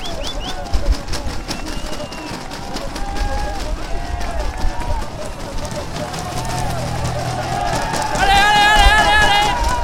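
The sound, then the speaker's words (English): Crowd noise at the summit finish of a Tour de France mountain stage on the Col du Portet: dense, continuous cheering and voices with scattered shouts, and a loud tonal blast near the end. “we opened there with the noise from the summit at the finish of the day, the top of the Col du Portet.”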